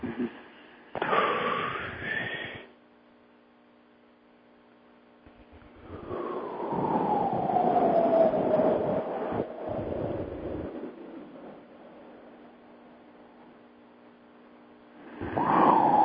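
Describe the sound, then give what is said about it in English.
A person breathes very slowly and loudly in a deliberate demonstration: a few long, airy breaths, one stretching several seconds, separated by quiet pauses. “we'll start with a very slow breath, like this. Mm-hmm. I'll make it loud so you can hear.”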